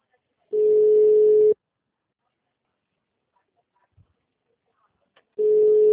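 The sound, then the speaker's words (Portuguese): Busy tone on a phone line after a call has dropped: a steady, single-pitched electronic beep, then a long gap of near silence, then the same tone starting again and cutting off at the end. “a ligação caiu.”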